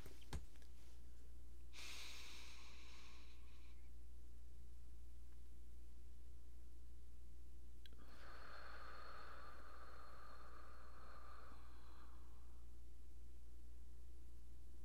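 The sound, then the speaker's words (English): Slow deep breathing, paced as inhale, hold and exhale: a soft, breathy inhale of about two seconds, a quiet pause, then a longer, gentler exhale lasting several seconds, all faint over a steady low hum. “I'm just going to inhale, then I'll exhale. But I'm going to do it for 6 seconds to inhale, 4 seconds to hold, and 7 seconds to exhale.”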